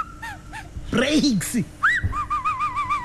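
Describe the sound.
Whistling in a car-service setting, as an oil-change cost is discussed: a few short wavering notes, then a louder rising whistle followed by a run of repeated warbling notes that rise and fall.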